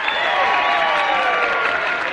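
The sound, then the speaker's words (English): Audience applause at the Grand Ole Opry welcoming a pair of performers to the stage, a dense, steady wash of clapping that holds at an even loudness from start to finish. “So let's get together and give a big welcome to the Leuven Brothers.”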